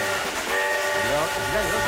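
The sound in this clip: A steam train whistle sounds as a sustained, chord-like tone that holds steady and loud for nearly two seconds over a low rumbling train.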